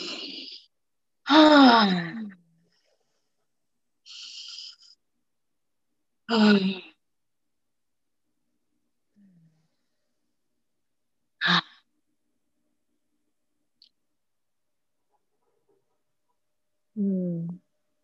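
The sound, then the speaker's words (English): Several deep cleansing breaths are spaced across a quiet stretch during a guided relaxation. Some exhales are voiced as long sighs with a falling tone. Others are shorter and softer, with silence between them. “then take about three big cleansing breaths, and then bring yourself back gently.”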